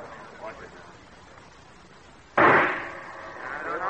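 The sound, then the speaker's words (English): A single sharp rifle shot rings out in a shooting contest after a quiet stretch with faint voices, followed by a ringing decay that trails off. “And the third and last round, unless one of the contestants is eliminated, another round will be fired.”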